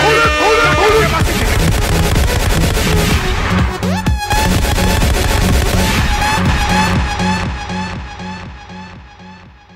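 Gunshot sound effects fired off by a DJ during a live music stream, repeated sharp bursts layered over loud, dense music that eases slightly toward the end.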